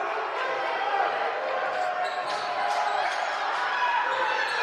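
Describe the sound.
A basketball dribbled on a court during a women's game in the final seconds before halftime: a steady run of bounces, faint beneath a constant dense wash of background noise.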